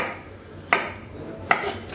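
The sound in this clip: A knife chops food on a cutting board while the cook holds it with a claw grip. Two sharp, crisp knocks sound about a second apart, moderately loud over a quiet background.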